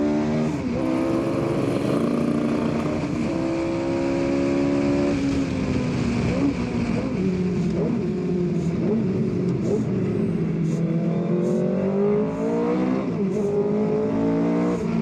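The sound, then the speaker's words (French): A car's engine roars at full throttle while accelerating hard in second gear, its loud, steady tone climbing in pitch across the whole clip. “En deuxième, regarde ça, j'accélère à fond. Je suis collé dans le siège.”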